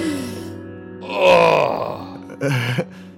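A pained groan, drawn out and low, swelling in the middle before fading. A second, shorter strained grunt follows near the end.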